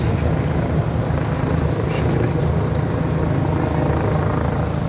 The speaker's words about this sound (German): Über dem Berliner Tiergarten, dem großen Park im Herzen der Hauptstadt, kreist am frühen Sonntagnachmittag noch immer der Polizeihubschrauber.